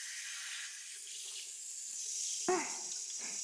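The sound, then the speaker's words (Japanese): Shower water running during a hair wash: a soft, continuous hiss and spray that holds steady throughout, with no talk. “シャワーを出して、”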